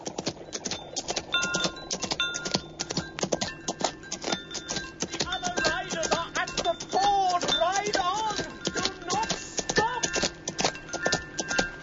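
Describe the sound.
A galloping horse drums its hooves in a rapid, steady beat that runs throughout, with a voice crying out over the hoofbeats partway through.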